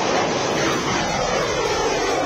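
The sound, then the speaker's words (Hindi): Loud, steady jet-like roar of military fighter aircraft flying over Jodhpur air base during a joint Indian-Japanese air exercise. The broad, continuous rumble holds an even level for the whole stretch, with no voices. “Veer guardian युद्धाभ्यास में ये शौर्य की उड़ान है। Jodhpur airbase इन दिनों हिंदुस्तान और Japan के बीच हवाई ताकत की बेहतरीन साझेदारी का गवाह बन”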